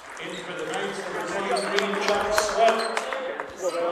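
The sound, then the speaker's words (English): A basketball is dribbled a few times at the free throw line before a shot in a men's college game, Carleton at St. Mary's. The sharp, bouncy thumps sound under a commentator's steady talk. “stands at the free throw line, takes a deep sigh. After a couple of dribbles, he swishes it.”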